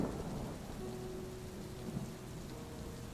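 A thunderstorm with rain: a steady, dense wash of rainfall runs throughout over a low, rolling rumble of thunder, with no voices.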